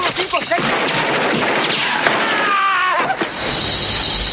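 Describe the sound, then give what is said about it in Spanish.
A few sharp gunshots from a soldier shooting three enemies in a 1986 war film, the reports cutting through a busy mix where voices are also heard. “En mitad de la huida, los enemigos se encuentran con Highway, que acaba con los tres con su arma.”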